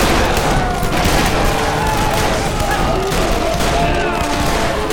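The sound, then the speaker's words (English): Heavy gunfire as two armies, one uniformed and the other in buckskin, open fire on each other: a dense, continuous barrage of overlapping shots, loud and unbroken. “As the two groups closed on each other, both sides opened fire.”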